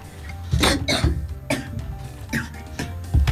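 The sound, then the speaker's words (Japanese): A coughing fit: several harsh, rough coughs burst out at uneven intervals, some close together in quick pairs, with throaty rasping between them, fairly loud and without speech. “ちょっとね咳込んでしまいましたけれども”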